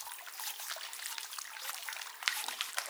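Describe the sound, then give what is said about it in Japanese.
Water rinsing off a slippery surface, a faint, continuous trickling and splashing with small irregular spatters. “ぬるぬるとしてしまっておりますね。こちらを丁寧に洗い流してまいりますからね。”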